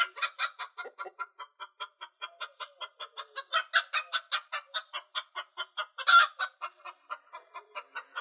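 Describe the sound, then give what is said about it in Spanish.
Hens clucking in a quick, steady run of many short, bright calls with no voices, one louder squawk bursting out a little past the middle. “¿qué le parece a las gallinas? Apenas bueno para pagar el tributo de San Juan. Ya tenemos las gallinas y los huevos.”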